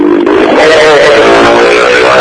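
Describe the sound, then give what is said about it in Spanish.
A motorcycle with an open exhaust roars loudly and continuously, its rough, throaty engine note filling the whole clip. “cuando pasa una moto con escape libre. Sí, bien la moto, ¿eh? Claro. Debe haber escuchado.”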